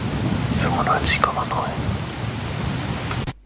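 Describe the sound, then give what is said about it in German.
Steady rain falling outside: a dense, even hiss with low rumbling beneath it, holding constant for about three seconds before cutting off abruptly. “Ja, es regnet draußen, wenn mich meine Augen denn nicht trügen, wenn ich aus dem Fenster schaue.”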